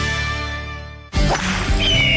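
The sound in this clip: A golf club swing cuts through with a sudden airy whoosh after a stretch of steady musical tones; the broad rushing sound stays loud until the end.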